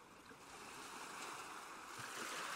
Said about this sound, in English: Listen to the seagulls and the sound of the ocean.